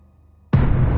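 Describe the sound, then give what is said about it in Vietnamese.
An explosion effect for a floating ball of blood bursting apart: quiet at first, then one abrupt boom about halfway through that continues as a dense, loud roaring rumble to the end. “Quá cầu ầm ầm nổ tung, máu tươi bắn ra bốn phương tám hướng.”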